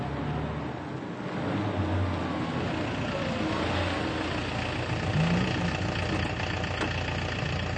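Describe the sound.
Taxi engine idling, a low, steady rumble that stays faint and even from start to finish with no other clear sounds over it.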